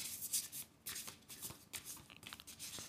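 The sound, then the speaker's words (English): Tarot cards, not too slippery but with good slip, are shuffled by hand in a quiet, irregular run of soft riffling bursts and sliding swishes. “These cards they're nice because they're not super slippery, but they do have good slip.”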